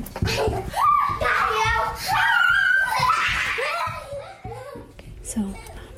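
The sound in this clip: Young children chatter and laugh while playing in a home office during self-quarantine, their high voices and giggles running continuously and loudly with brief pauses.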